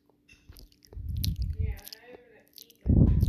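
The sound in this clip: Chewing and biting while eating cheesecake, with wet, squishy mouth sounds coming in a few short bursts, quiet at first and loudest in a final crunchy burst.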